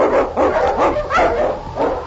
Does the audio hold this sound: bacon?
no